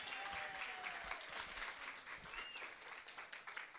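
Applause welcoming a chapter president to the microphone at a convention, a steady, faint wash of many hands clapping with no voices.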